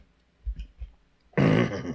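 Throat clearing by someone with a frog in their throat: a few faint low rumbles, then one loud, rough rasping burst lasting about half a second, with no talk.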